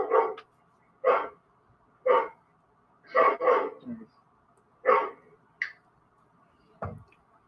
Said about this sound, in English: That would be the blue-nosed miniature pit bull. Nope, red nose.